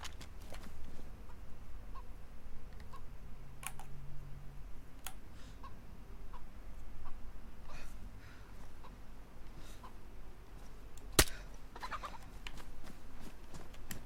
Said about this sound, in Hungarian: Itt egy csirke, ezt lelövöm, hogy legyen kajánk.